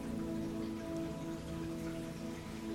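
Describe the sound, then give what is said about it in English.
Rain pouring down in a soft, even, constant patter with no breaks, a faint sustained tonal drone running underneath throughout. “It's as if the rain is pouring down.”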